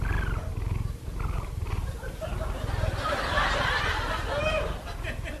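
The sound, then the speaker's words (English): A sleeping cat purrs in a steady, low, rumbling rhythm with a breathy hiss above it. The purr is fairly loud and continuous for the whole stretch. “That's my cat, Sammy.”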